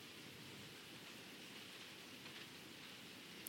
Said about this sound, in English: Relax into the rain with me.